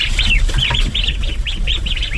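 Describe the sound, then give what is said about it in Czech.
Ducks just fed on a farmstead make many rapid, high, chirping calls that overlap almost without pause, loud and steady throughout. “Lada Wagnerová právě nakrmila kachny”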